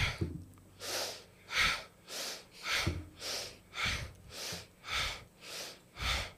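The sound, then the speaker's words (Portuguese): Breathing in and out during a breathing exercise, inhaling to the left and exhaling to the right with the thumb behind the shoulder. Many airy, rushing breaths follow in an even, unhurried rhythm, each a short swell. “Você inspira para o lado esquerdo e expira para o lado direito.”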